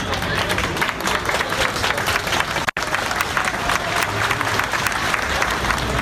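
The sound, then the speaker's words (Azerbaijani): Crowd clapping outside a courthouse in support of defendants: many people applaud together in a steady, fairly loud patter of hand claps that continues throughout, with one brief cut partway through. “Məhkəmə önünə toplaşanlar təqsirləndirilənlərə dəstəklərini əl çalmaqla bildiriblər.”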